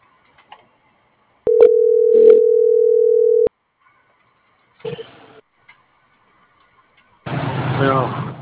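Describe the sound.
A steady telephone dial tone holds for about two seconds while a call is being dialed, with brief dialing beeps over it, followed by a short clatter and then a voice that begins speaking at the end.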